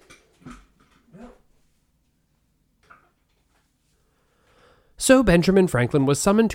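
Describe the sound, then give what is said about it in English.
A few faint, short dog whimpers and yips, then a pause before a person starts talking loudly. “that was the dog”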